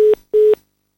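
A telephone tone sounds while the caller is on hold: two short, steady mid-pitched beeps with a brief gap between them, then silence.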